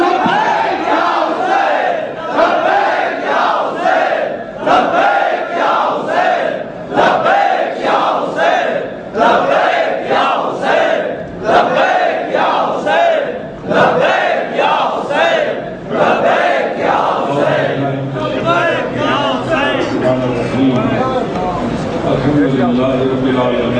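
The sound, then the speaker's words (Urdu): A crowd at a religious gathering chants the slogan Labbaik ya Hussain in welcome, the loud massed voices repeating in a steady, driving rhythm throughout. “وہ اچن تمام دوستوں کے گزارش آئے تو لبیک یا حسین کے نعرے سے سندن استقبال کن”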